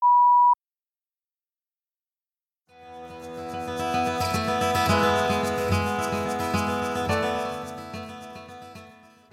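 A single short, steady beep marks a question in a listening exam. It sounds once at the start, stops abruptly, and is followed by silence before a sustained, dense tonal sound swells in and holds.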